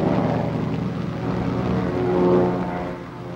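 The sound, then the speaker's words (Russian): Airplanes flying overhead make a steady, droning engine hum that swells slightly toward the end and then eases off, with no voices. “В небе летят самолеты.”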